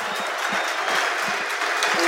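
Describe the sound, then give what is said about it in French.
A stadium crowd gives an ovation to footballer Olivier Giroud at an Arsenal match against LOSC, with sustained, dense clapping throughout. “L'ovation pour celui qui a inscrit 105 buts ici avec le maillot des Gunners d'Arsenal. Superbe hommage ici rendu à Olivier Giroud.”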